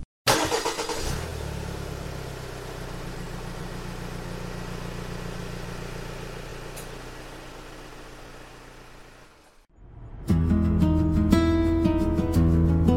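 Engine of a newer off-road vehicle setting off and driving, a steady mid-pitched drone held at an even level for about nine seconds before it fades out.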